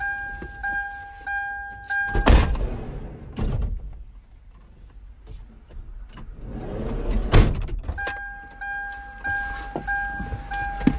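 A car door is opened and shut as a laptop is taken from the back of the car, giving two heavy thunks several seconds apart, with a steady beeping door chime before the first and after the second.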